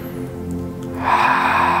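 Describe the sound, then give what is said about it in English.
A person draws a deep breath during a meditation, a steady airy rush that rises midway and continues over a sustained musical drone. “Let's take one more deep breath in and out.”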